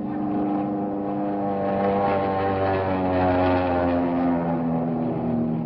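A low-flying airplane passes overhead with a loud, steady engine drone. Its thick harmonic hum holds nearly constant throughout, and no one speaks.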